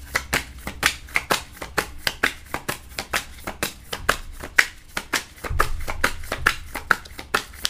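A tarot deck is shuffled by hand, giving many quick, crisp papery flicks and slaps in an uneven but steady rhythm, with no voices over them.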